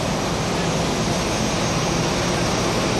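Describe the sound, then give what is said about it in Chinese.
Engine roar of a passenger plane landing at Chongqing Jiangbei International Airport: a loud, broad, unbroken rush of noise that stays steady from start to finish. “这里是重庆江北国际机场，就在刚刚，赴京参加庆祝中国共产党成立105周年大会，七一勋章获得者马善祥乘坐的航班平稳落地”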